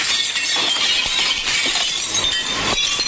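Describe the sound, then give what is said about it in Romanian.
A thermos flask breaks with a continuous bright, crunchy shattering noise that stays loud and hissy throughout, with no voices. “Ce-a fost asta? Tu ai vrut-o, spargere. De final? Nu, de termos.”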